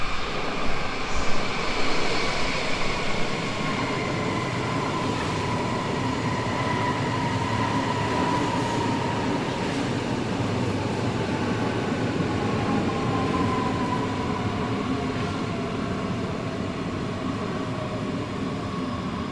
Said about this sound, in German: So, jetzt warten wir mal kurz, bis die S-Bahn wieder an uns vorbei ist.